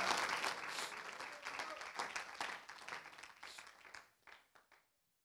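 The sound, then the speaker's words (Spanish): Applause from a church audience clapping in praise to the Lord at a Spanish-language service, a dense burst that thins and fades, ending in a few last scattered claps. “Dele un aplauso de alabanza al Señor.”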